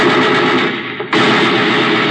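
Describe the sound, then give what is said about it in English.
A machine gun fires in a loud, dense, continuous stream of rapid shots. The volley breaks for a brief pause midway, then resumes at full strength. “give me that machine gun.”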